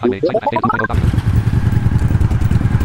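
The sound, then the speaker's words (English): Motorcycle engine in a video game, with a brief stepped rise in revs followed by a loud, steady, rumbling roar at speed. “Dude, I love the way this bike sounds. Like, when I bought it, when I first played this.”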